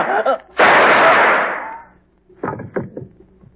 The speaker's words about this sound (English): I told you I was going to use only one shotgun.